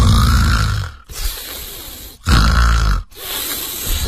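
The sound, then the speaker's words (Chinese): Snoring of a woman lying in bed: loud, rough rasping breaths that alternate between harsh and softer phases, separated by brief silent pauses. “紧接着这女的就开始打呼噜”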